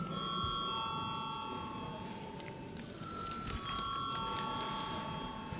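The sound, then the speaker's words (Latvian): Parliamentary bell rung to call a vote: continuous metallic ringing with sustained high tones and a rapid rattling texture that lasts the whole clip, with no talk. “Paldies, lūdzu zvanu.”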